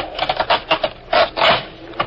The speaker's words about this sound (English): All right, pull that floorboard up all the way.